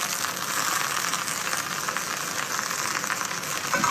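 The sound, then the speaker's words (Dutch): Garlic frying briefly in a pan with damp leaves already in it gives a steady, bright sizzle with fine crackling that runs evenly throughout, with no voices. “Knoflook gaat erin. Heel klein beetje even laten fruiten. Komt-ie.”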